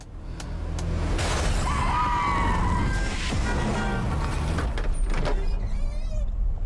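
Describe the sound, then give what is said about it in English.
Trailer sound for a Coen brothers film plays as a dense, loud wash of vehicle-like rumble and crashing noise. A few whistling tones rise above it, and no voices stand out. “here's a suggestion for the weekend if you if you're looking for something to watch in theaters. Let's play that trailer.”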